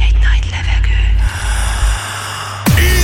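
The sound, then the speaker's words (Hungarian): A big, gasping intake of breath sits over a loud, low rumbling backdrop, and a sudden swooping burst of sound cuts in near the end. “Felkészültél. Végy egy nagy levegőt.”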